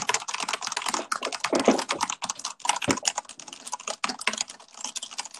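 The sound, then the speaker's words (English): Rapid clattering of typing on a noisy computer keyboard: many quick, irregular keystrokes with brief pauses, moderately loud and alone with no voices. “I would use my keyboard right now, but it sounds like this.”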